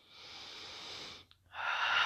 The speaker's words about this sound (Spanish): Voy a hacer respiraciones. Me vas a escuchar de vez en cuando respirar profundamente.